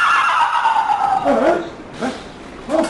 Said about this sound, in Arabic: الحصان الحصان حصان البحر